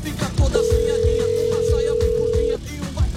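A telephone tone sounds as a number is dialed for a game-show call: a single steady, mid-pitched beep lasting about two seconds over busy background sound.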